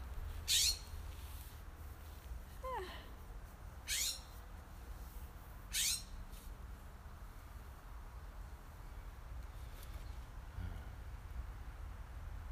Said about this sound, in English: Hi, birdie!